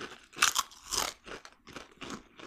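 Crunching on barbecue potato chips, including a big chip: many irregular, crisp, crackly bites and chews, some sharp and loud, others softer.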